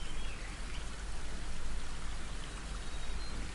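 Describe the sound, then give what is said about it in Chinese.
Flowing water, a continuous even rushing wash with no pauses, soft and steady throughout. “流水的声音包围住你，感觉一下颜色、光线、身体的温度。”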